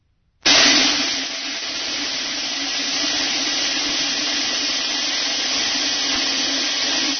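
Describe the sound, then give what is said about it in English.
Five hundred BBs pouring into a metal soup pot make a dense metallic rattle with a ringing low tone. It starts abruptly loud after a short silence, then holds steady to the end. “The sound that you are about to hear is a BB falling into a metal soup pot.”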